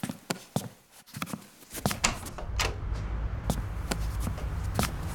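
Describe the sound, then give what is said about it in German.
Footsteps of someone setting off on foot after putting on shoes and a jacket: a series of distinct steps and knocks, some shuffling, spaced irregularly over about five seconds. “Da können wir doch zu Fuß hingehen, oder? Können wir. Ich zieh mir nur schnell Schuhe und Jacke an. So, und schon kann's losgehen.”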